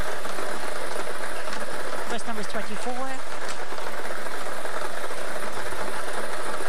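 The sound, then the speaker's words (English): A lottery draw machine spins numbered balls for a Daily Millions game, giving a steady, loud mechanical whirr with rattling and a few brief squeaky tones. “Let's get these balls spinning so you could start winning.”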